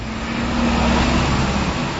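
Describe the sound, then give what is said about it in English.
Traffic jammed at an intersection clogged with construction trucks: a steady, loud rumble of idling and creeping engines with a low hum underneath. It stays continuous and even throughout, with no talk. “Traffic jams trying to move through the intersection clogged with construction trucks.”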